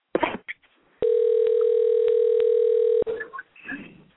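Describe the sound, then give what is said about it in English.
Ringback tone on an outgoing telephone call: one steady, electronic buzzing tone lasting about two seconds, with brief muffled noises before and after it. “They're not going to answer the phone.”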